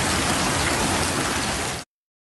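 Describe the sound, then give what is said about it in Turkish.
Heavy evening downpour that turned into hail over farmland, a loud, dense, hissing wash of drops striking surfaces, steady throughout before cutting off abruptly. “Akşam saatlerinde başlayan yağmur sonrasında dolu yağışına döndü.”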